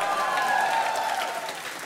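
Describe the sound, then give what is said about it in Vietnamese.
Audience applause in a hall for a married couple being introduced on stage. Steady, moderately loud clapping that eases off slightly toward the end. “Ok, xin chàng pháo tay cho Huy và Huệ”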